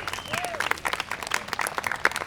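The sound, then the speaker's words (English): Applause from an audience at a community bicycle project talk: moderately loud clapping with many quick, uneven hand strikes that sustain throughout. “How about you just give yourself a round of applause for being here?”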